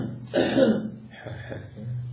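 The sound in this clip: A voice imitates throat clearing with two short, rasping bursts, the first louder and longer and the second softer and clipped, fairly quiet overall.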